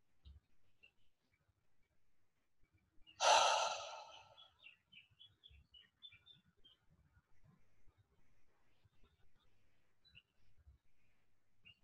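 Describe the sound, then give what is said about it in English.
A single deep breath during a guided meditation: one soft, airy rush that stands out against near silence, followed only by faint low rustles. “Just take a moment, take a deep breath.”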